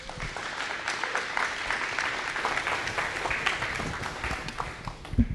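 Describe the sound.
Audience applause welcomes a speaker at a church gathering: steady, dense clapping from many hands, fairly soft, continuing evenly for several seconds with slight swells near the end.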